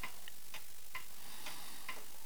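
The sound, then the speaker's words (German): A clock ticking softly in a quiet space, with a few light, crisp ticks at a steady, unhurried pace. “Diese Stille. Nur das Ticken der Uhr.”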